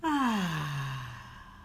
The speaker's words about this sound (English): Breathe in. And out.